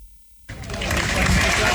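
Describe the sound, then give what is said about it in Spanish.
Applause in Granada greeting the coffin of flamenco guitar master Pepe Habichuela. After a brief near-silent moment a dense clapping wash breaks in and grows louder, holding steady to the end. “Son los aplausos con los que Granada recibió ayer el féretro del maestro de la guitarra flamenca Pepe Habichuela, que será enterrado en el cementerio de Granada.”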